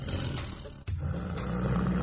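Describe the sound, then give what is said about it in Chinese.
Roaring of two young tigers facing off, a sustained, deep growling roar that runs almost without pause, broken only by a brief dip partway through. “两只小老虎彼此互不相让，针锋相对的大吼大叫”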